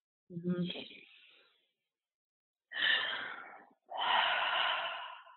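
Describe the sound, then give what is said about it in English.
Deep breaths taken together: a short breath with a slight voiced edge, followed by two long, airy breaths, each loud and clear with silence between. “so let's take a deep breath together”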